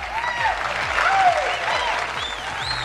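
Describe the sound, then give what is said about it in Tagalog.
An audience gives steady, continuous applause, with a voice talking over the clapping. “Thank you para sa magandang palakpakan na yan, AC.”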